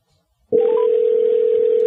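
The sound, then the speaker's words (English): A telephone line tone sounds while a dropped caller is being called back: a single steady, even electronic tone starts abruptly after a short silence and holds unbroken to the end, with no voices. “Did I lose JL? Oh, I did. She texted me that I lost her. Let me get her back on the line.”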